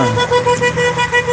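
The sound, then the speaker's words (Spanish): Car horns honk from passing vehicles in support of protesting workers, a string of short, loud, tonal toots over traffic. “de los vehículos que van pasando por la zona, que acompañan con las bocinas los reclamos de los trabajadores”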